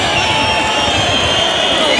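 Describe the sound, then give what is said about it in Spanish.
A bullfight crowd roars loudly and without pause, shouting and cheering together to demand the trophy for the bullfighter. The dense wall of voices holds steady throughout. “el público está pidiendo el trofeo para Ruiz Fernández, como oímos de fondo. Y con bastante fuerza, porque parece que el público se ha dado cuenta el mérito de la faena”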